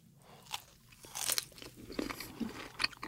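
Crisp, wet crunching as a juicy pear slice is bitten into and chewed, with several sharp bursts of crunch followed by softer chewing. No one speaks.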